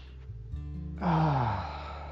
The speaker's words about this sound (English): Let's just take another big breath and be centered.